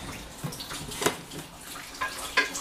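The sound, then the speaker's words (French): Water runs from a tap as a dish is rinsed clean of leftover butter, a steady moderate splashing hiss broken by a few brief clinks and splashes. “on va rincer un peu le reste”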